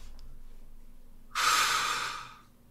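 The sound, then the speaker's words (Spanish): A single breath heard over a phone line: one soft, airy hiss that rises suddenly and then fades out slowly over about a second, alone above a faint low hum. “me lo acerco un poco a ver si habla alguien. es una respiración.”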